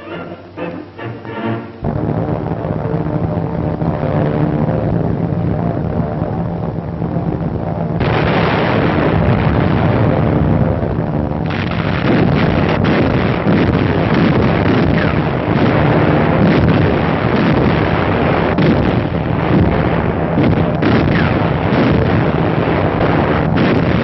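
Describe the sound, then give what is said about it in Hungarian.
Explosions from German air raids on England: a dense, loud, continuous roar of blasts and rumbling bursts that runs almost unbroken after a brief, quieter opening. “Szakadatlanul folynak a német légitámadások Anglia ellen.”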